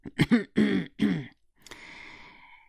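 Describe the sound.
A voice performs a dry throat-clearing cough, as in a character clearing his throat, given as a few short voiced bursts followed by a breathy exhale, alone with no other talk.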